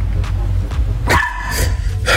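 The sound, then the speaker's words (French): A dog barks a few times, giving short, sharp barks and higher yips spaced unevenly, loud over a low background rumble. “Le chien s'appelle Yvette. C'est le chien qui me fait rire.”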